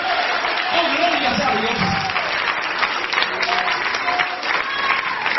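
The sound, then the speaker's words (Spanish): A church audience applauds loudly in a dense, continuous wash of clapping that lasts throughout, with voices mixed into the crowd noise. “Dale ese aplauso fuerte a Dios.”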